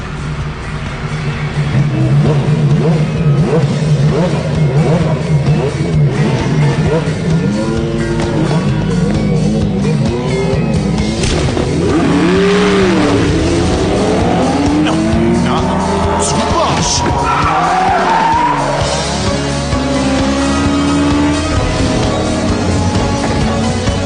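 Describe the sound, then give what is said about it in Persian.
A car engine revs hard while tires squeal and skid, a loud, continuous roar with rising and falling whines throughout, and voices talking over it. “این همون ماشین مزخرفیه که حرفشو میزدی؟”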